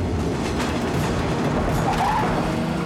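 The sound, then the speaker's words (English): A freight train of unmarked tanker cars streams past a crossing beside a parallel road, giving a steady, dense rumble with a faint rhythmic clatter that holds level throughout. “the train passes another crossing. The unmarked tanker trailers stream by”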